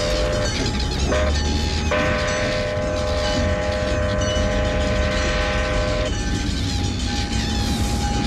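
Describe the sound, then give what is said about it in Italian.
A train arriving as a woman with a child screams, heard as a steady, loud mechanical roar with sustained tonal horn-like notes running over it throughout. “La donna col bambino lancia un grido lacerante e arriva un treno.”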